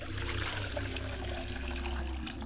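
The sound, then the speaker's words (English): Water poured out as a libation offering, a steady continuous trickle that runs unbroken through the whole clip over a low background hum. “I pour water to my mother's side of the family, and I say, Ashe, libation.”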